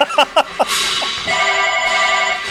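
A telephone ringing with an incoming call: a few short sharp taps, then a loud steady electronic ring that holds on without voices.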